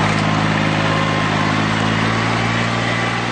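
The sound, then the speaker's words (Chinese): Rice transplanting machine roaring across a paddy field at Nanniwan: a loud, steady engine drone with a constant low hum that stays unchanged throughout. “走进南泥湾千亩稻田，插秧机在田间轰鸣穿梭，一排排嫩绿的秧苗被整齐地插入泥土。”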